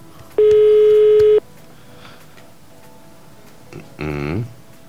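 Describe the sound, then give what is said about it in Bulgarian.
A telephone tone from an outgoing call to someone celebrating a birthday sounds steadily for about a second, followed by quiet line hiss and a short, faint burst near the end. “Звъним на рожденник.”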